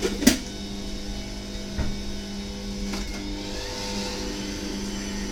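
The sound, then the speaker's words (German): A kitchen machine's motor spins fast while mixing a batch, its lid in place before almond flour is added. It gives a steady, fairly faint mid-pitched hum with a few soft knocks. “Wer sich wundert, warum die Maschine jetzt so dreht, wir haben den Deckel gefunden.”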